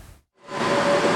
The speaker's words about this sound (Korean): 승객을 태운 열차가 서소문 건널목을 통과합니다.